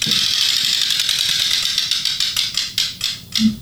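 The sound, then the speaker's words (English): An 18-number prize wheel spins with rapid ratcheting clicks that gradually spread apart as it slows, ending in a few distinct, spaced ticks. No talk. “And we spin the wheel, see which one we get. Let's do it. Here we go.”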